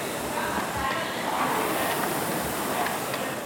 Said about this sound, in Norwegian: kroppen som du her hører at beveger seg frem og tilbake på romaskinen